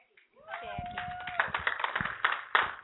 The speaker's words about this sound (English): Give these ladies a fine hand clap.